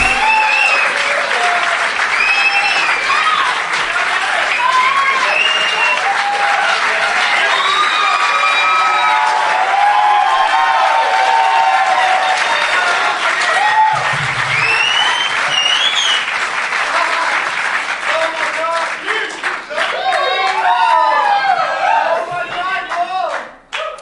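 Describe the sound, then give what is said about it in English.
Fired-up crowd applauding and cheering, with loud sustained clapping mixed with many shouting voices and whoops, including children, before the noise drops away at the very end. “Fired up crowd.”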